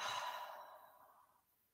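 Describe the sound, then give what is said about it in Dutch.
A person exhales slowly during a breathing exercise, a single soft, airy breath that fades gradually into silence. “Adem diep in door je neus. En uit door je mond.”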